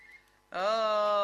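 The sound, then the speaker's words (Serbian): A telephone rings with an electronic tone that starts abruptly after a faint hum and holds as a steady, buzzy, harmonic note. “Evo zvoni telefon, netko je uporan.”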